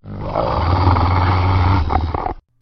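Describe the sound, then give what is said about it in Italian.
A terrifying roar from an enraged dog: one sustained, loud, growling blast that lasts about two and a half seconds and then cuts off abruptly. “sentirono un ruggito spaventoso e videro scaraventarsi su di loro un animale di cui non avevano mai visto l'eguale.”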